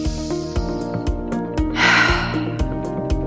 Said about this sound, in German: Nimm den nächsten tiefen Atemzug